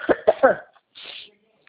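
Three harsh coughs come in quick succession, fairly loud, followed by a softer breathy sound after a short pause.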